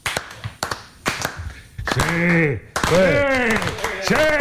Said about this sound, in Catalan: Ovació progressiva per Bermúdez i Nil Solà. Comença a poc i va a més.